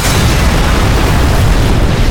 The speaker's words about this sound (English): The SEAL opened the hatch partway, and I tossed my grenade through.